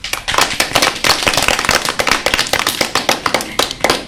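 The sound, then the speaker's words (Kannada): Children give a big round of applause at the close of a lower primary school programme in Bhadravati. It is loud, rapid, crackling clapping with dense sharp hand strikes kept up throughout. “ಒಂದು ಚಪ್ಪಾಳೆ ಬೇಕಲ್ಲ ದೊಡ್ಡದು.”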